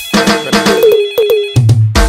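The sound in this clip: A phone rings with an incoming call: a loud electronic ringtone plays a quick, bouncy melody of bright repeated notes, ending on a few lower, buzzier tones, with no voices.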